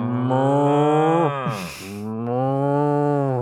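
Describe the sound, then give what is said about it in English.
Cows moo: a long, low, droning call sinks in pitch, breaks into a breathy rasp, then a second sustained moo follows, loud and with no other sounds. “Okay, well, these are my cows.”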